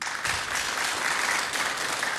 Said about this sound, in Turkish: Sevgili Cemil için bir alkış istiyoruz.